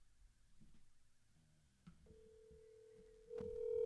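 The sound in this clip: A telephone is dialled: faint, scattered clicks give way to a steady electronic line tone lasting about a second, then a brighter, louder tone begins near the end.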